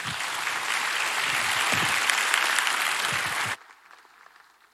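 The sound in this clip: A church audience applauds to welcome a returning guest speaker. The clapping is dense and steady, then drops suddenly to a faint patter near the end.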